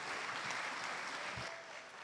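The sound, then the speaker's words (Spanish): Faint, even applause from the audience at a gathering of Maya Ch'orti' indigenous authorities in Guatemala, a continuous soft patter of many hands that eases slightly toward the end. “Un aplauso fuerte, aplauso.”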